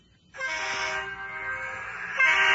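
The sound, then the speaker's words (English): Giant air horns on a bus, supplied by Peterbilt, sound one sustained, chord-like blast that starts abruptly after a brief quiet moment and swells louder near the end. “That's the sound of the Sheets Cool Bus and the new, what are they called? Air horns? Air horns. They're giant air horns.”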